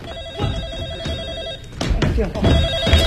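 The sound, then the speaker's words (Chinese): Telephone ringing in rapid pulsing bursts that repeat steadily, fairly loud, with other sounds mixed in toward the end. “电话。”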